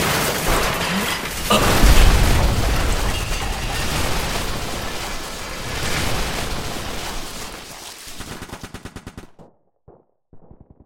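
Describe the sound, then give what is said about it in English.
A missile exploding in a loud, dense roar of blasts and crackling gunfire, with a heavier boom early on, then breaking into scattered sharp pops that thin out and stop. “Firing last missile now.”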